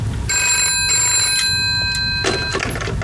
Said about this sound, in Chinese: 电话。